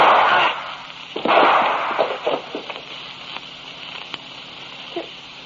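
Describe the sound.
A gunshot from a gun fired in a killing: a loud, sharp burst with a noisy decaying tail, then a few fainter pops and crackles trailing off, with no voices.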